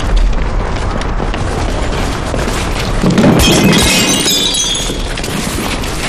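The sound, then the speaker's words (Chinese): A valuable object dropped and smashed at a wartime army headquarters, heard as a sharp shattering burst midway through over steady, loud rumbling noise. “看你们把严长官的宝贝摔坏了，你们赔得起吗？”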